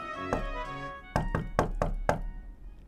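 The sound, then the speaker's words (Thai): Knocking on a door: a quick series of sharp, hollow thumps in a steady rhythm, after one earlier softer thud, over a sustained tonal background. “จากนั้นเจ้าแมวก็วิ่งตุ๊บตุ๊บตับตับขึ้นไปที่ชั้นบน ไปเคาะประตู”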